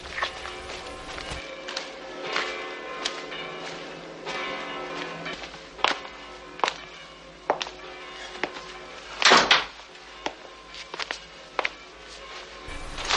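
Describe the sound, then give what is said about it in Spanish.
Doors are shut one after another in a house on a snowy Christmas, giving several dull wooden thuds at irregular intervals. A church bell rings steadily underneath. “La viuda cierra las puertas”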